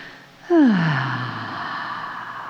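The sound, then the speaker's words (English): A deep breath let out as an audible voiced sigh that drops in pitch, then trails into a long, steady, breathy exhale during a guided relaxation exercise. “How about if you just take a nice, full, deep breath into your body and let it out?”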